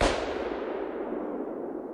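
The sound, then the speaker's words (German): A rifle shot fired at a man's head in a dramatized scene: one sharp, loud report right at the onset, trailing into a long, gradually fading noisy tail. “Ihr Finger legt sich auf den Abzug. Hans-Jürgens Kopf liegt genau im Ziel. Sie schießt.”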